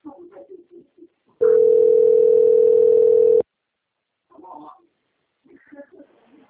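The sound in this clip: Telephone line tone before a call is answered: a loud, steady single-pitch tone sounds for about two seconds without wavering, with people talking before and after it.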